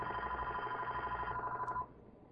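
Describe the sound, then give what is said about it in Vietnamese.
A telephone rings with an incoming call during a Buddhist dharma talk: a steady electronic trill at a fairly constant pitch that stops abruptly partway through, leaving quiet. “alo, có Phật tử bên ngoài gọi vào đó, thành ra thầy ngưng chút.”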